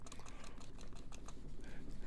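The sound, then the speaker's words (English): Keyboard typing comes through as a quiet, steady run of many quick key clicks with no pauses. “I'm not Googling. I'm typing.”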